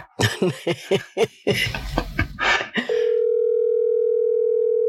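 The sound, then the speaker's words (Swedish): A telephone dial tone sounds as a short call is being placed: after a few seconds of voices talking and laughing, a steady, unbroken hum holds for about two seconds, then cuts off. “Han ska ringa kort samtal.”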